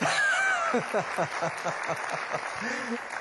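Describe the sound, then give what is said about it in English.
An audience claps after a presenter's live demonstration, a rhythmic patter of hands of moderate loudness with a speaking voice over it. “Come on, give us a clap.”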